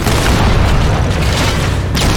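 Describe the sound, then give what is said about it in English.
A cannon shot booms in a video game. A loud, deep blast and its heavy rumble fill the whole short clip, with no gap between them. Nobody speaks. “these elites are surviving the cannon shots”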